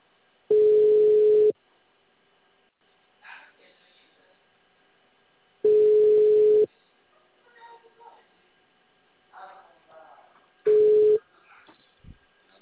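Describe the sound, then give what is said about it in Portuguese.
Telephone ringback tone while a call connects: three steady, mid-pitched, one-second tones about five seconds apart, with faint murmured talk in the gaps. “Tá chamando aqui.”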